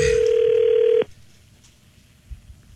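A telephone dial tone holds loud and steady for about a second, then cuts off abruptly, leaving faint low noise.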